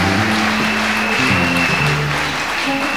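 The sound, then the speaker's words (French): A church audience claps and cheers for Jesus during a French-English worship service, with loud, continuous applause throughout and sustained low tones beneath. “Acclamons Jésus.”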